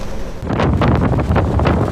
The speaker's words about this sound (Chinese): 天空阴沉，狂风一整天不停，巨浪翻滚，海滨步道已被淹没